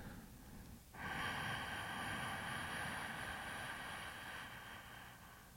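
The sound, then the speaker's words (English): A long, slow, deep inhalation during a guided breathing exercise begins after about a second as a soft, steady airy hiss that holds for several seconds, quiet and alone. “And now let's take a long, slow, deep breath in.”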